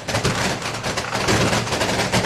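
Firecrackers set off to welcome the San Lorenzo team crackle in a dense, continuous barrage of loud overlapping pops and bangs that runs unbroken throughout, with no voices.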